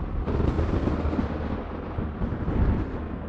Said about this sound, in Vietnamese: Phía trên đầu bọn họ, mây đen bắt đầu kéo vần vũ, từng tia sét xanh lè xé ngang trời. Theo sau đó là những tiếng nổ đi đùng.